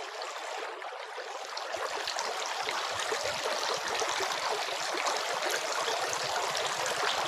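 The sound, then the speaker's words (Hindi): Water is poured over hands while washing before prayer, making a continuous, soft, hissing trickle and splash that stays even and fairly quiet throughout, with no talk. “Mohammad उन पर शांति हो अपने हाथों पर पानी डालते उन्होंने 3 बार धोते।”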